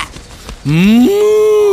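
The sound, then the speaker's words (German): Mooing from hand-carved toy cows in a cardboard box: after a short stretch of quiet rustling, one loud, drawn-out nasal moo rises in pitch, then steps up and holds steady to the end. “Das sind deine Kühe, die du im Läden gekauft hast. Das sind eigentlich keine richtigen Kühe in dieser Kartonschachtel drin.”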